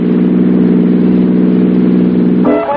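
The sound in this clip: Car engine running on Atlantic Imperial gasoline, a loud, steady droning hum with strong low harmonics that changes abruptly in tone just before the end.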